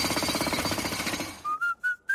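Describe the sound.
Construction noise from building a playground: a fast, steady jackhammer-like rattling pulses along quietly, then gives way to a few short whistled tones.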